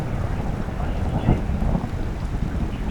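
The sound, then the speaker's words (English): Thunder rolls as a low, rumbling swell that peaks briefly midway, with a steady hiss of rain underneath. “Now that's some good thunder right there.”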